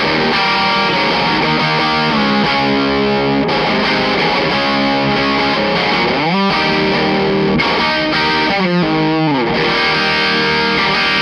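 A distorted electric guitar playing a solo through a chorus effect, with a loud, continuous, heavily saturated tone, quick runs of notes and a couple of sliding pitch sweeps, with no voices.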